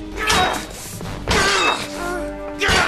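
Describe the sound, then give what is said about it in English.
A sword smashes into a wooden chair in three heavy blows. Each is a harsh crash and thwack, spaced about a second apart. “What are you going to do? Destroy this evil chair, this vile engine of sorcery.”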